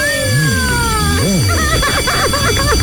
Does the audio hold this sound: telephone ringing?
yes